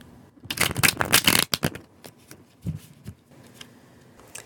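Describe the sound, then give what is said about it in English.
Burning Times Tarot cards being shuffled and pulled. A dense, loud burst of riffling comes early, then a few sharp, separate snaps and soft slides as single cards are drawn, with no talk. “I'm going to pull a couple of tarot cards for you, and then I'm going to finish up with an oracle card from the Healing Waters Oracle by Rebecca Campbell and Katie Louise.”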